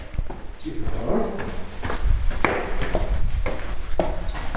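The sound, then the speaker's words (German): Footsteps walking up the stairs of the Kammerhofmuseum in Gmunden: a steady series of hard, knocking steps, fairly loud and evenly paced. “Wir gehen jetzt über die Treppe.”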